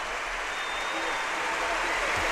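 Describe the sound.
Sustained applause from a large audience after the solemn blessing that closes a mass celebrated by the Pope. The clapping is a dense, even roar with no breaks from start to finish.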